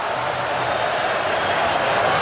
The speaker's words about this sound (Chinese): 球迷呢在不断的欢呼，示意球队往前。